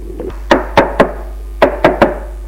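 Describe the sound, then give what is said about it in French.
A locked door is shaken hard against its frame, producing sharp knocking rattles. After a few faint taps come two bursts of three loud, abrupt knocks with a short pause between them, and there are no voices. “Il regarde à terre, secoue la porte.”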